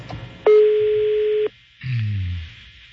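A telephone tone sounds while calling another line: a single steady beep about one second long at a constant pitch, heard clearly against a quiet background.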